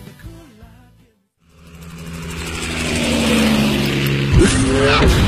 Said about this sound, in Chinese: 车身线条大胆前卫，配备 V8 引擎，全时四驱系统，全铝汽油发动机，最高时速超过每小时300公里